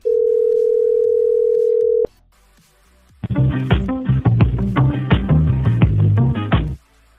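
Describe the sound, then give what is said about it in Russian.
A steady telephone tone after a number is dialed, on a call to a bank, holds for about two seconds, then a short pause gives way to a few seconds of bright, tinkly melodic music on the line. “Набираю.”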